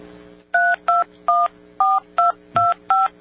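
Touch-tone telephone keys dial a phone number: seven short, steady dual-pitch beeps with brief gaps between them, sounding alone over a faint hum.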